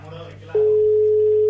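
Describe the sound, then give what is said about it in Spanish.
A steady telephone dial tone sounds while a call is being placed: after a short lead-in of other sound, one loud, unbroken mid-pitched hum starts and holds evenly to the end. “Llamémoslo a Pablo Bruera y le ofrezcamos.”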